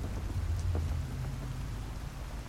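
Heavy rain falling steadily, a dense, even hiss of constant loudness with no pauses or breaks.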